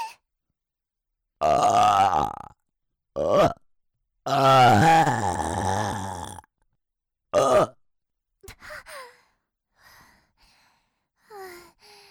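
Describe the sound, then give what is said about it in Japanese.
A person lets out several loud, deep burps of varying length, one long and drawn-out with a groaning tone, followed by fainter breaths and small sighs. “今のは大好きっていう気持ちのゲップだよ”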